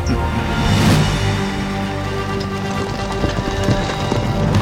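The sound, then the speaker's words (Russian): Some two thousand horses gallop at night under riders, producing a dense, continuous drumming of hooves. It forms a loud, even rumbling patter with no single beat standing out. “Две тысячи лошадей скакали в ночи.”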